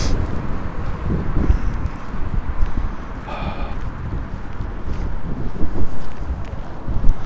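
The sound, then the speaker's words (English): Strong wind hitting a microphone windscreen head-on, a loud, low, rumbling buffet that churns continuously and swells in gusts, growing strongest near the end. “Okay, now there's a lot of wind. I just wonder if this windscreen can handle this, then it's pretty good. Right from the front.”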